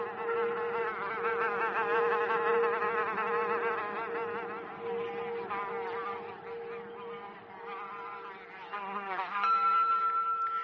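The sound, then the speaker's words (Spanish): An insect buzzes in flight, a continuous, wavering high-pitched whine that holds steady for about ten seconds and shifts in tone near the end. It is heard alone, with no voices. “el insecto zumbó alejándose y desapareció por un agujero del techo, donde el eje del ventilador penetra en la habitación”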